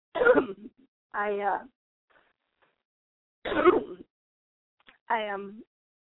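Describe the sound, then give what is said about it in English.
A person coughing in four separate bursts with throaty, voiced tails, each followed by a stretch of silence. “Sorry, I'm coughing here.”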